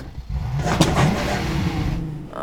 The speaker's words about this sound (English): The clutch! You have to keep your foot on the clutch when you change gears.